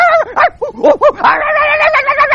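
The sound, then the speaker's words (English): A human voice imitates a small dog snarling and barking: a few quick, yappy barks burst out, then a sustained, steady, growling snarl. Loud and tonal throughout. “the dog started to snarl and bark, and he went right after that girl”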